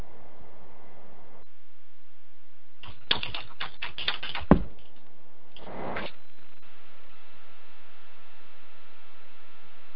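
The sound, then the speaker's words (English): Rapid clicks of keystrokes as a message is typed on a computer keyboard, coming in two short bursts over a steady low hiss, with no talk. “I'll type it into chat.”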